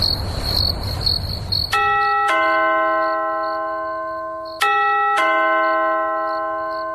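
A doorbell rings at the door: two ding-dong chimes, each a pair of bright bell tones that ring on and slowly fade. Steady insect chirping runs underneath.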